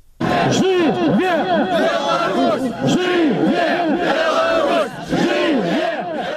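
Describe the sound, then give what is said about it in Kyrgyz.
A protest crowd in Minsk chants "Long live Belarus" in loud, rhythmic unison, the slogan repeated several times in a sustained wall of voices. “жашасын Беларусь деген урандар жаңырды”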